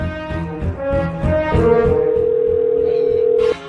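A telephone ringing tone on a call to a contest winner, a single steady, mid-pitched tone that holds for about two seconds before cutting off.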